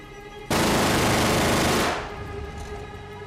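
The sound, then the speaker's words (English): Gunfire from a fighter plane chasing a Messerschmitt erupts in one loud, rapid burst of about one and a half seconds, a dense rattling roar that cuts off and leaves a lower rumble behind. “Getting a window of opportunity, Farrier opens fire but misses.”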